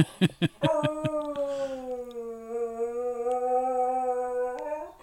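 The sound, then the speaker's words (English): A dog howls in one long, loud, sustained tone that holds steady for several seconds and then lifts in pitch at the end. “That's his dog. That's the dog.”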